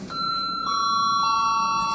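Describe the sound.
A parliament's voting bell rings as one steady, continuous electronic tone for about two seconds, bright and sustained with layered harmonics and no talk.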